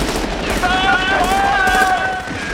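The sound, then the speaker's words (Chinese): Police open wild gunfire in a slapstick comedy film scene. A dense, continuous volley of shots roars throughout, with thin whistling tones over the din. “结果导致这群警察不明就里的疯狂射击。”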